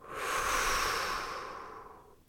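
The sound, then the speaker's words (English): A single long, deep exhale through the mouth, a soft breathy whoosh that swells over the first half second and then slowly fades over about two seconds. “I invite you to breathe long and deep. Exhale through your mouth.”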